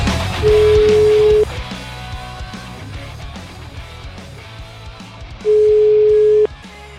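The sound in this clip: A telephone line tone sounds while a call is being placed. Two steady, mid-pitched beeps of about one second each are separated by a long gap and sit over a continuous busy background.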